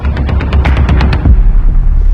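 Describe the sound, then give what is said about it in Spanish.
Assault rifle gunfire on a bridge where fighting has broken out: a rapid string of sharp, loud cracks for about a second, followed by a heavy, rumbling roar. “No dejan de disparar. Son fusiles de asalto.”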